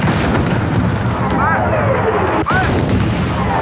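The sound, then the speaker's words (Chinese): An explosion during artillery shelling of a battlefield position: a loud, continuous rumbling roar broken by a sudden sharp blast near the end. “我刚才被炸了一下”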